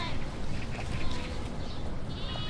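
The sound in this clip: Sheep bleat in a grazing herd. Scattered wavering bleats rise faintly over a constant rushing background noise.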